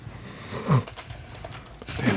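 Fingers clatter on a computer keyboard during an online search, with quick, irregular clicks and clacks running steadily at a moderate, fairly quiet level.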